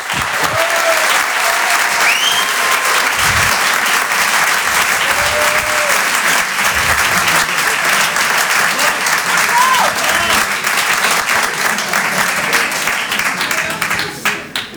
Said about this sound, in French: Je vous demande de l'encourager. Faites du bruit, s'il vous plaît, pour Julien Santini.